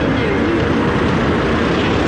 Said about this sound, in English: Well, we're here on the ground at Manchester Airport today